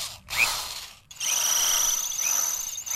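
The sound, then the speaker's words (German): Power drilling from summer construction work at a broadcasting house: a harsh, high-pitched mechanical whine with a ratcheting edge, first in a short burst, then after a brief pause in a longer, steady run. “Ja, überall wird in den Sommerferien gebaut. Vor allem die Autofahrer müssen viel Geduld haben, denn an Autobahnen, an Brücken, an Schienen wird saniert und gebaut. Und offensichtlich auch bei Ihnen.”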